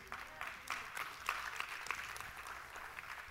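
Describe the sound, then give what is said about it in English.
A church audience claps weakly, with faint, scattered claps in an irregular patter and no strong build. “come on, don't ever clap puny. If you're going to clap, clap.”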